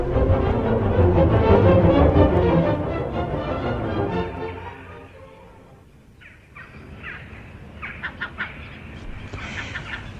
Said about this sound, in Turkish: Yoksa kargalar seni rahatsız mı ediyor?